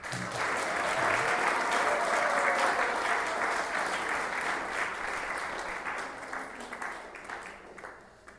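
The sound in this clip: Applause welcoming an honoree: a loud, dense burst of many hands clapping that carries steadily for several seconds, then gradually thins and fades toward the end.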